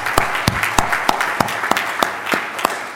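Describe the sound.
Applause from an audience welcoming guests at a church service: many steady, evenly spaced claps over a continuous crowd wash, lively and fairly loud.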